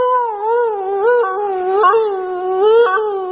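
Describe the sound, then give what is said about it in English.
A human voice imitates a small hound dog howling: a sustained, wavering tonal wail with a few small upward breaks in pitch. It is loud, carries on alone for about three seconds, and has no other sounds around it. “they had this little hush puppy hound dog looking dog. I love this story. I go in and that dog goes,”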